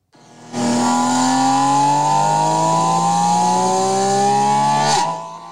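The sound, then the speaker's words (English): A Porsche sports car engine revs hard under acceleration, its loud, sustained note climbing steadily in pitch for about four seconds before cutting off abruptly. “clip at different levels of acceleration to demonstrate, you know, how much the sound characteristics change depending on how hard you push the throttle pedal.”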